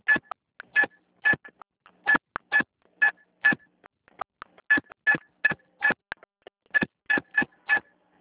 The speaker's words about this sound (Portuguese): Digite o número do seu cartão ou, se preferir e for o titular, digite...